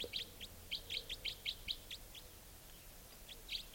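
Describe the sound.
A bird gives its less forceful 'wild bird' call: a faint series of quick, high chirps in an irregular run. A short pause follows, then a few more chirps.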